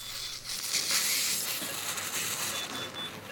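Surgical suction draws from a cavity during an operation to control bleeding at a suture line, producing a steady, fairly quiet hissing, rasping whoosh that runs unbroken throughout.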